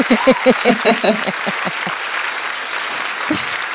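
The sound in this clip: Studio audience on a talk show applauding a returning guest: steady, full clapping that continues throughout, with voices speaking over it at first before the applause carries on alone.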